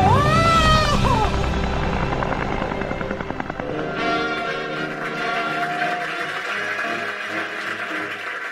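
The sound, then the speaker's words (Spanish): An autogyro takes off with a loud, continuous whirring drone from its rotor and engine, overlaid with a tonal whine. The sound stays strong throughout, and its tone changes partway through. “ha sido la expresión que ha usado sobre volar en autogiro? ¿Decía como en un molinillo?”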